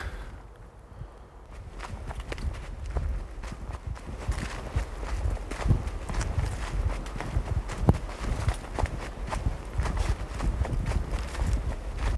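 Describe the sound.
Footsteps of someone walking in the woods on a morning. A steady run of crunching steps continues throughout with no talk.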